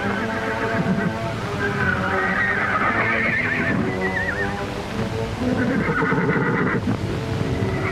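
A young horse foal neighing: loud, high, wavering whinnies that come in several bursts over a constant rushing background noise.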